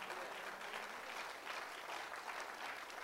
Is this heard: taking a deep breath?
no